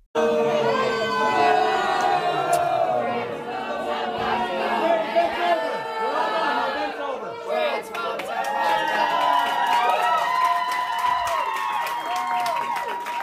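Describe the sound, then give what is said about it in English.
Far-left protesters cheer and shout inside a venue after police ordered everyone to vacate. A dense, continuous crowd roar of chatter, overlapping shouts and scattered clapping stays loud throughout. “They caved to the mob, and these protesters actually cheered when the police denounced this. Take a listen.”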